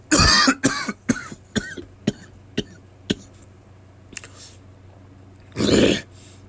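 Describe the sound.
A man coughs to clear something stuck in his throat: a loud harsh burst, then a run of shorter coughs that fade in strength, a pause, and a final loud, rasping burst of throat clearing.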